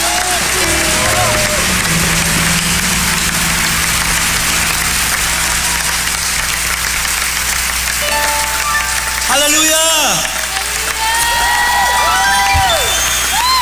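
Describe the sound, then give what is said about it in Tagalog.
A church audience applauds the Lord loudly, sustained clapping and crowd noise, with cheering and whooping voices rising over it in the later part. “Sige nga, palakpakan natin ang malakas ang Panginoon.”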